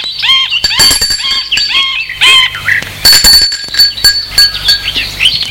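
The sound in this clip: A bell is rung again, producing bright, repeated ringing with chiming metallic clinks and squeaky high tones that continue through the whole stretch, loud and busy with no voices.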